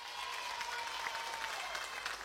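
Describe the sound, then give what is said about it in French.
Audience applause from a crowd: a dense, even patter of many hands clapping, fairly soft and sustained at a steady level from start to finish. “Voilà, encore un plus gros applaudissement pour vous autres.”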